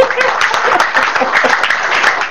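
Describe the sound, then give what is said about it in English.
Applause from a church audience during a service, a dense, steady wash of many hands clapping that holds at an even loudness throughout. “Give Jesus a clap of it. It's not good. Are you clapping for Jesus?”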